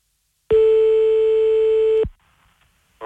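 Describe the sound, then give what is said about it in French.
A telephone tone follows the other party hanging up. One loud, steady, unbroken beep lasts about a second and a half and then cuts off to near silence. “Ah, il a raccroché, putain! Allez, on en rappelle la deuxième.”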